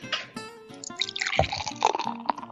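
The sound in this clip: Foaming dark chocolate beer, black as stout, poured into a glass: bubbly gurgling and splashing with fizzy crackle, loud and uneven, in short surges.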